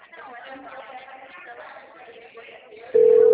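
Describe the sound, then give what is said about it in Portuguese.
Telephone call tone while dialing: a steady, loud single-pitch tone cuts in abruptly and holds to the end, following a stretch of indistinct low voices. “Liga pra ela agora, do microchip. Sua chamada está sendo encaminhada para cá.”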